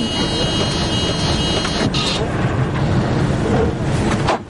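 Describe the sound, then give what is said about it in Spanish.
Bus manoeuvring through a curve, heard as a continuous loud engine and road rumble that holds steady throughout with no clear breaks. “El autobús sigue su camino. Eva y Tomás se miran algo preocupados. El vehículo llega a una nueva curva y vuelve a hacer maniobras.”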